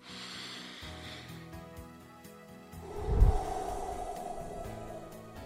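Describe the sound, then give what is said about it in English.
A slow, deep breath taken in and let out, a soft airy rush that swells to a fuller exhale midway, over a quiet sustained background tone with no talking. “Let's breathe and then pray.”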